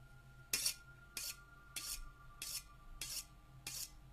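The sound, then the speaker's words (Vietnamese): Rasping metal scrapes like a knife being sharpened or metal ground against the base of a bowl: six even strokes about half a second apart, gritty and high, faint and alone. “Văng vẳng trong không khí, có tiếng gì xoèn xoẹt ghê răng. Tự như là tiếng mài dao, hay là tiếng kim loại mài lên cái chôn bát.”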